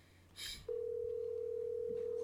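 An unanswered telephone call: after a short burst, a steady, mid-pitched electronic tone sounds and holds evenly to the end.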